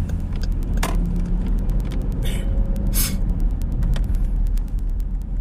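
Air-brake hiss from a bus on the road ahead: short bursts of hissing over a steady, loud low rumble of road traffic.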